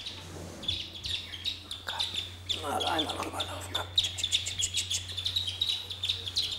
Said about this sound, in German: Deswegen scheuche ich jetzt die Küken mal rüber. Ja, kommt mal her. Die Zwerge sind 3 bis 6 Tage alt.